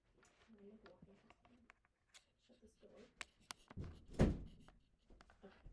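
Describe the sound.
A door closes with a single heavy, low thud in the middle of ongoing talk, and soft shuffling sounds can be heard around it.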